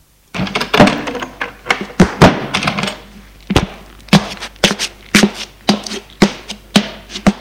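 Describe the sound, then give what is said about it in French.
Knocking on an office door: many sharp, loud wooden thuds in an uneven rhythm, some closely bunched and others spaced apart, with no voices. “l'on frappe à son bureau. Entrez!”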